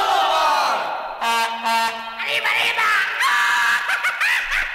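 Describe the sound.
A celebratory Mexican grito shouted in a song, a loud, high-pitched yelping scream with wavering, gliding pitch, delivered as a few short whooping bursts.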